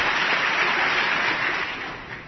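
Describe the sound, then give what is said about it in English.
Standing audience applause during a political speech on the federal budget, a steady wash of clapping that gradually softens toward the end. “Oh, stand up and applaud him, oh, for Christ's sake.”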